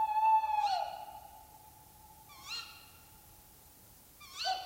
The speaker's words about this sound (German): Manchmal nehme ich nachts auf, den Wald, die Nacht, das ist, hör dir das an.